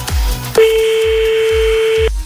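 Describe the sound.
Telephone tone as a number is dialled for a live call: a single steady beep lasting about a second and a half over a low, regular thumping beat.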